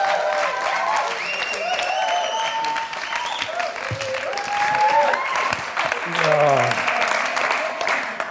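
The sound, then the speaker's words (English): A church audience applauds to welcome a speaker. The clapping is dense and steady and sustains loudly throughout. “Would you give him a raucous welcome as he brings God's word to us, Rich?”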